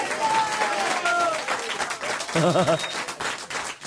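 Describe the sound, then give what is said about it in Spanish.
Audience applause rises in a steady, dense wash of clapping that fills the whole moment at moderate loudness, with a brief tonal musical sting partway through and scattered voices underneath. “Fuerte el aplauso para Gabriel Arena.”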